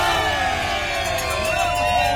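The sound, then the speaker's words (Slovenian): Mexican cycling fans cheer outside the UAE team bus after a stage, a dense, steady crowd roar of raised voices with pitched calls rising and falling across it. “Takole so bili veseli, ko se je Pogačar odel v velikansko mehiško zastavo in navijači so hitro ustvarili nov napev zanj.”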